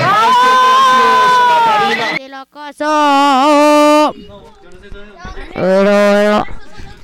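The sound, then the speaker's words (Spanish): Loud, drawn-out cheering whoops from a few voices at a sustainable fashion launch event come in three long bursts separated by brief quieter gaps, with no clear clapping beneath them. “Fuerte aplauso.”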